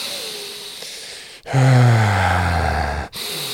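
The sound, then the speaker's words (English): A man demonstrates intense, deep breathing during intimacy: a softer breath, then one long, loud, voiced exhale with falling pitch, followed by another breath. “I start breathing more intensely than I normally would.”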